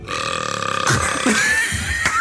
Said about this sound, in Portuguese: Um grão de arroto, cara.